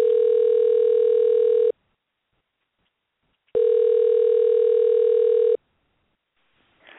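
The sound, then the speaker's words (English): Telephone ringback tone as a call is placed, two long, steady, buzzy tones of equal pitch separated by a silent gap, loud and alone. “I need to give Jeff a quick call. I don't see him in my caller ID, so let's do that right now.”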